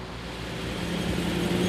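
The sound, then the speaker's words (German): Engines of a convoy of smoking two-stroke cars setting off for a 12 km run between rapeseed fields in Western Pomerania, heard as a steady low rumble that swells slightly louder. “Punkt 16 Uhr macht sich die qualmende Karawane auf nach Anklam. 12 Kilometer Strecke. Hoffentlich bleibt alles dran. Zweitaktdunst zwischen den Rapsfeldern in Vorpommern.”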